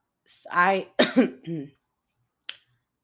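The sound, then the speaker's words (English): A few harsh, rasping coughs and throat clearing from a person with a lingering cough, three short voiced bursts close together, followed by a single faint click. “I still got that cough and it's like bothering me to the fucking core.”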